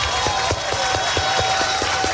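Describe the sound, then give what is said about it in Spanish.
Rhythmic clapping at a Spanish-language church service, a crowd beating out an even, quick pulse together in unison, with a sustained tone ringing steadily beneath the claps. “Denle el aplauso al Señor, bien grande.”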